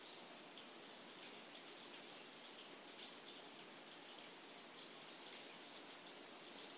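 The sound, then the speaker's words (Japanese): Steady rain falls on a Kyoto morning, a dense, even hiss with no pauses, while faint bird chirps flicker through the wash of drops. “今京都の朝は雨が降っていて、雨の音が聞こえる。鳥の声も聞こえる。”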